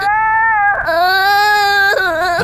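A young child crying: sustained, high-pitched wailing sobs that break briefly for breath, then resume loudly.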